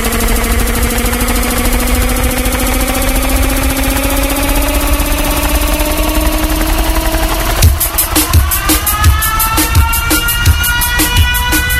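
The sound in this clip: An engine revs during a live DJ set, its droning hum climbing steadily in pitch for several seconds before a pounding beat of regular thumps kicks in over it.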